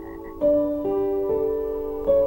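A toad croaks in a steady, droning tone that breaks into a few connected segments, loud and alone with no voices.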